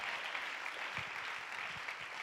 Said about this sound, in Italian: Facciamo un applauso ai volontari che hanno allestito la sala